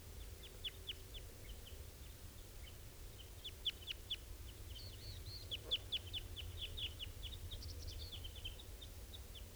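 Faint, high chirps and short peeping calls of birds, adults feeding their young, scattered in quick clusters over a low, steady background rumble.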